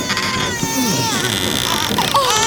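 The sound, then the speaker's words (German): A newborn baby boy cries from inside a box that has just been opened, giving wavering, high-pitched wails that continue through the whole clip. “Hör mal. Oh, weint da nicht ein Kind? Ja, ein Kind.”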